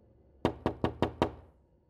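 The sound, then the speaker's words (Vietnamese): Five heavy bangs on a door, evenly spaced and sharp, standing alone against near silence. “Tiếng đập cửa tiếp tục vang lên.”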